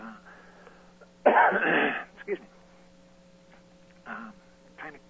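Throat clearing from a person fighting off a cold: one loud, rough rasp lasting under a second, followed by a few fainter throat noises, over a steady faint hum.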